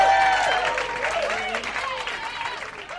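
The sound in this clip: A stand-up comedy audience applauds a comedian, with loud, continuous clapping from the crowd mixed with voices cheering over it and tapering slightly toward the end.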